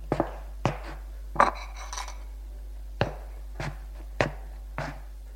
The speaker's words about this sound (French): Elle se lève pour faire la vaisselle.